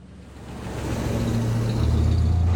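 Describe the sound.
Low engine drone of an old Mini with a tiny, low-powered engine and stiff rubber cone suspension, driving and shifting into second gear; the hum grows steadily louder with a change in tone partway through.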